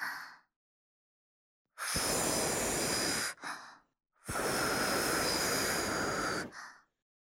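Breath is blown into the valve of a sleeping mat to inflate it: two long, loud, hissing blows, each about two seconds, with a few short, softer breaths before, between and after.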